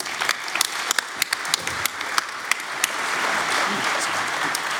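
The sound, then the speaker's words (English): Audience applause for a speaker being introduced, beginning with scattered sharp claps that swell into steady, dense clapping. “So give Fork a hand, guys.”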